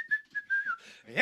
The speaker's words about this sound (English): We'd have that high-pitched whistle.